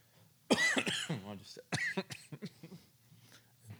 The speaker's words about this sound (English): It happens sometimes. My coffee just went down the wrong pipe.